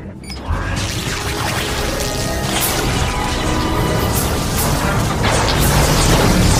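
A science-fiction shield generator fitted with special fuses powers up in a loud, sustained roar with whining tones, building steadily without a break.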